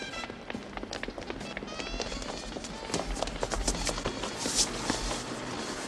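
Rapid footsteps of people running toward a parked car, a dense stream of quick, light taps and scuffs that grows slightly louder and busier toward the end.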